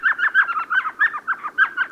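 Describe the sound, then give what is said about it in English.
Rapid series of high, yelping notes from an elf owl, the world's smallest owl, calling from a sycamore tree hole along a dry West Texas stream bed at twilight; about ten sharp, chattering calls repeat in steady rhythm. “As twilight deepens along a dry West Texas stream bed, a tiny owl peers out from a hole in a sycamore tree. It's an elf owl, the smallest species of owl in the world.”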